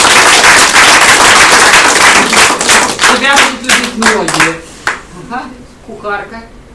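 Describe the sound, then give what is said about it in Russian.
Applause rises as a dense, loud wash of clapping for about three seconds, then thins into scattered claps as people begin talking over it. “Аплодисменты!”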